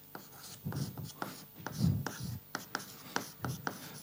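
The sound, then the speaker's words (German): Hand drawing a diagram, with quick scratching pen or marker strokes that come in short bursts of varying length, some firmer and louder than others, with brief pauses between them. “Ich zeichne es mal an.”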